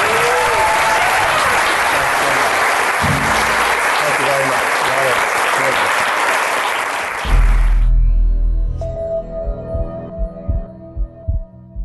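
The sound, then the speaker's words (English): An audience applauds a guest at the end of a live event. Dense, sustained clapping lasts about seven seconds, then stops abruptly and a voice begins speaking. “Thank you all for coming. The podcast will be published this weekend. Give it up for Dave Asprey.”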